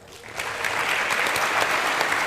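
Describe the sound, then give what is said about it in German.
An audience applauds after a contestant's score is announced at a points tally. The clapping swells quickly into a loud, dense, even wash of many hands that holds steady to the end. “Herzlichen Glückwunsch, das ist ein Applaus wert.”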